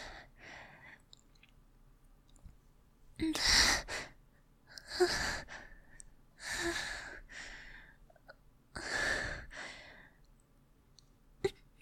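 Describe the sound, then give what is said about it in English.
Heavy breathing from someone catching their breath: several loud, gasping breaths and sighs separated by quiet pauses, with a sharp click near the end. “I just need to catch my breath.”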